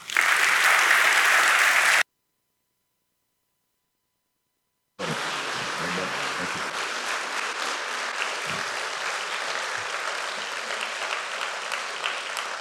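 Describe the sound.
Church audience applause welcoming a guest speaker at Mission Road: about two seconds of dense clapping cut off by silence, then a longer, steady stretch of sustained applause at an even level.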